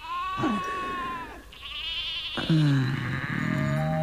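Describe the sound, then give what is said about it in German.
Sheep bleat in two long, wavering calls with a brief pause between them, the second one louder and richer, with lower bleating layered underneath. “Pass auf die Schafe auf.”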